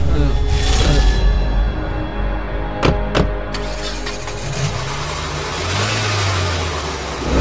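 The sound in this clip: A car engine starts and pulls away, a steady low motor rumble with revving, broken by two sharp clicks midway, and the engine drone deepening toward the end.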